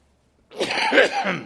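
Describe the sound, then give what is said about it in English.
A single cough or throat-clear from a preacher just before a prayer, one rough burst lasting about a second after silence, with no talking. “Our Heavenly Father, you remind me with that cough that I cannot preach unless you enable me to. I thank you also for the cough”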